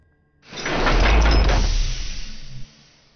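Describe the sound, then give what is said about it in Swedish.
A spacecraft airlock door opens with a loud, broad hissing rush that swells quickly, holds for about two seconds, then cuts off abruptly. “Det tog lite tid tills vi kom på ett sätt att öppna luftslussen in till farkosten.”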